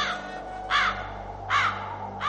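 Old crows cawing in harsh, rasping calls: a few evenly spaced caws, roughly three-quarters of a second apart, over a steady low hum, with no talking.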